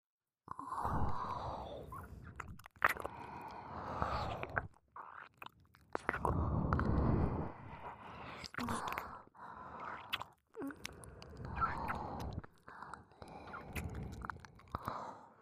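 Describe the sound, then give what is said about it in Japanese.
Wet ASMR ear-licking sounds, intimate and moist, come in repeated bursts of slurping and smacking separated by brief pauses, with soft breathy noises between them. “またせっかく会えたんだから、お耳舐めてあげるね。 ねっとりした舌をお耳で感じて。”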